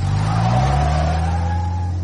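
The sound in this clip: A car engine accelerating as the vehicle drives off, a loud, sustained drone whose pitch climbs slightly over about two seconds, with no voices.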